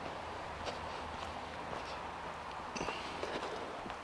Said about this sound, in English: So I'm just going to walk through the other side of the copse of trees.